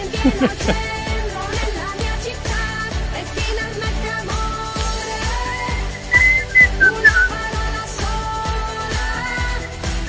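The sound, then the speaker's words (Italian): A whistled melody carries an Italian Serie A football league jingle, a bright, catchy tune riding over a steady, punchy dance-pop beat and backing music. “il fischietto così veramente è un plagio vergognoso”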